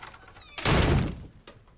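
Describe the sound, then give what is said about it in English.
A door slams shut as a character storms away from a dinner table in a TV scene: one heavy, loud thud, followed by a lighter knock. “George Cooper, played by Lance Barber, storms away from the table and slams the door.”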